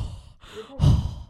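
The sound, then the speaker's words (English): A loud breath pushed out through the mouth straight into a microphone. It starts as soft breathy noise, then swells into a heavy, windy puff with a low rumble before easing off. No one speaks. “I can't breathe out my nose. I'm so conscious breathing out the mic.”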